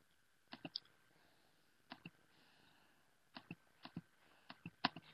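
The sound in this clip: Typing on a computer keyboard: several short bursts of sharp, faint key clicks separated by pauses, with no other sound.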